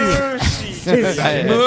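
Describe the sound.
A person imitates a cow mooing with the voice: a sustained, wavering voiced tone of about a second and a half with shifting pitch.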